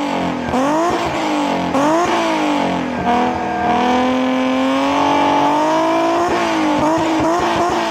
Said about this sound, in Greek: Χαρακτηριστικός ο ήχος του. Έτσι. Αν ακούσει αυτό τον V6 να βρυκάτε, ξέρεις ότι μιλάς για Αλφα Ρωμαίο.